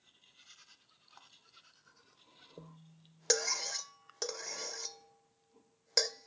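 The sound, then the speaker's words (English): A big knife slices through a pumpkin in a few rough, rasping scrapes. The scrapes come in separate bursts at low level, with quiet stretches between them. “cut with the big knife, that's this guy. Here we go. I kind of sliced off some of the pumpkin.”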